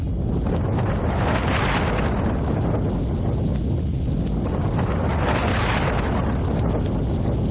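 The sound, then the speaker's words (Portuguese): The strong wind of a whirlwind makes a steady, loud rushing roar that swells and eases twice, with no voices. “Que barulho é esse? Nossa, que vento forte! Nossa, esse é um redemoinho!”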